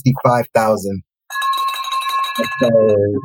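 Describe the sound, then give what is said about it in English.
A bell sound effect rings out to celebrate a profitable house sale: a bright, sustained chime of steady ringing tones lasting over a second, set between stretches of lively talk. “I always wanted to hear that bell ring”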